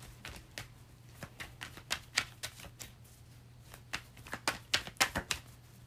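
Tarot cards being shuffled during a reading: many soft, crisp clicks and riffles in uneven bursts, faint and quiet, with no talk over them.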